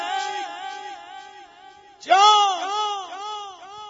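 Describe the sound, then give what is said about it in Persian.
Crying rises from a tent: a high, wavering wail that runs on steadily, then breaks into a sudden louder sobbing cry that trails off into falling, moaning tones. “صدای گریه از خیمه.”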